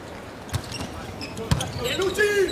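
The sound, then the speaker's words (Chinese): A table tennis ball bounces during a serve in a match. A few crisp, hard ticks sound about a second apart over steady background noise, and a voice talks toward the end. “李永贞的发球。”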